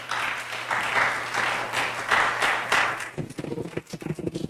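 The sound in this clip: Applause from an audience welcoming a speaker to a morning talk in Melbourne, Florida: a dense, steady patter of many hands for about three seconds, which then thins out and dies away.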